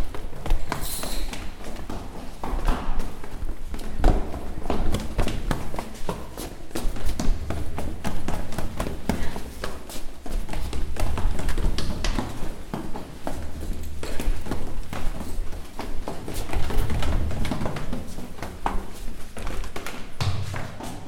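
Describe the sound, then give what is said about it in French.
Footsteps descending a long flight of a hundred stairs: many quick, rhythmic thuds and taps run without a break for about twenty seconds over a dense, noisy background. “On descend les 100 marches.”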